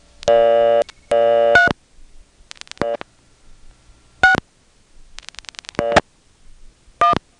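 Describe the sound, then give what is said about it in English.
A telephone number is dialed on a Bell Canada line: loud buzzing tone bursts alternate with quick runs of sharp dial clicks, several separate bursts spread across the stretch. “Now I dialed 6699, but I could have also dialed 3699. Here's 3611.”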